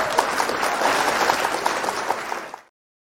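Audience applause welcoming the host of a segment on the mental side of whitewater guiding and trip leading, a steady wash of many hands clapping that fades out abruptly near the end.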